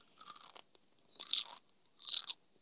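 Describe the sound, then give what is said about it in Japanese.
Chewing of gummy candy, heard as three separate bursts of moist, crunchy mastication with short silences between, no voices. “グミッチェル。これを食べて寝るんだ”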